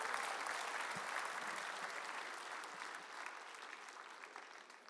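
Audience applause welcoming a singer onto the stage at a live show: thick, continuous clapping that eases slightly in loudness toward the end.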